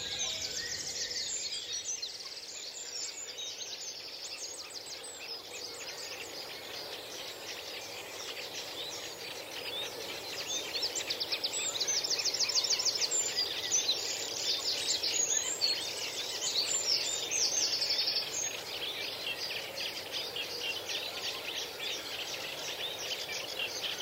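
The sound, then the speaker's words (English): A Welsh wren sings in a reed bed with a rapid, high, rolling trill, faint against a steady hiss of insect-like buzzing that runs throughout. “So we've got the obligatory wren singing there, the Welsh wren rolling its R's”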